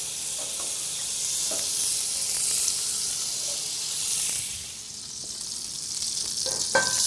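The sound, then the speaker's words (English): Butter sizzling with steak fat in a hot cast iron skillet, a steady bright frying hiss that dips briefly partway through, with a few faint clicks and taps near the end and no voices. “you'll have a nice combination of the butter and the steak fat to baste the steak with. And you really won't have to worry about having enough of that basting liquid at that point. All right, so get some butter down.”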